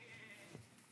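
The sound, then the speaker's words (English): A person imitates a goat's bleat as a mock notification-bell sound: one short, faint, nasal bleating call. “So many goats in here, dude.”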